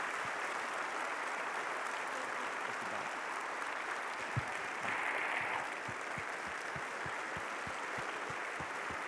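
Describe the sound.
Sustained applause from a church audience thanking a guest speaker at a Sunday service, a dense, even wash of clapping that holds steady for the whole stretch with no voices on top.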